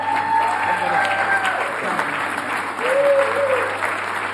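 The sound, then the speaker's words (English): A church audience on Amelia Island applauds and cheers to welcome its pastor, with sustained dense clapping at an even loudness and a few whoops rising above it. “Yeah, you better not cheer louder for me than you do Jesus.”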